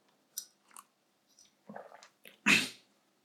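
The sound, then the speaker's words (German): A person taking a drink: a few brief, soft sipping and swallowing sounds, then a louder breathy burst near the end. No voice is heard. “Moment, jetzt muss ich was trinken.”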